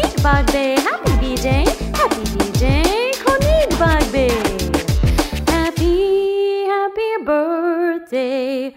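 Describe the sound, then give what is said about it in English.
Rapid dog barks and short yips with sliding pitch fill the first six seconds, followed by a few drawn-out, whining tones. “My dog says, woof woof to you, Konik Bagbe.”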